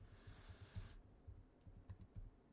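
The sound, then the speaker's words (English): Typing on a computer keyboard: a fast run of soft, faint key clicks with an uneven rhythm, with a brief wash of hiss during the first second. “You're listening to me type.”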